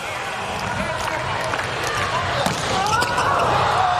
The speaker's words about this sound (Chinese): 诺尔奇的发球，